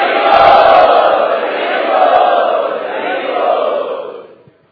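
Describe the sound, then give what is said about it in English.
A crowd chants loudly to welcome first-time guests at a kirtan gathering. The massed voices hold a sustained, sonorous drone that swells in a few waves and then fades away at the end. “So let us welcome all of these new guests who have come for the first time, loudly chanting.”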